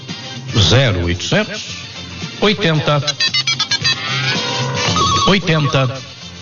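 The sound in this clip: A telephone ringing in a commercial, with rapid trilling ring bursts mixed under loud voices and music.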